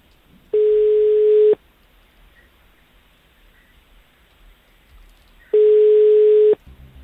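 Telephone tone after a call cuts off: two long, steady, mid-pitched beeps, each about a second, separated by several seconds of near silence.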